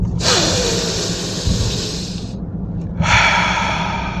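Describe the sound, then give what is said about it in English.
A big deep breath taken through a clogged nose: a long, loud hissing inhale lasting about two seconds, a brief pause, then a strong breath pushed out through the mouth. No voices. “All right, three big breaths. Here we go. First of three.”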